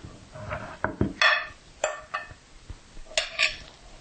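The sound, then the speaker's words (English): Bread dough is turned out of a bowl onto a counter, with several hollow clattering knocks and clinks of the bowl at uneven intervals, some sharp and some soft. “So now we're gonna turn out the dough onto a board or the counter.”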